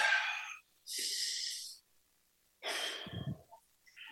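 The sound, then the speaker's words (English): Slow, breathy inhales and exhales from a person told to take a breath during a tapping session with a clinical psychologist, three distinct airy breaths separated by short silences, with a faint extra breath at the end. “Well, I'd like for you to take a breath.”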